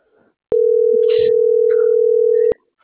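Telephone ringing tone on a call nobody answers: a single loud, steady beep lasting about two seconds, with faint sounds before and during it.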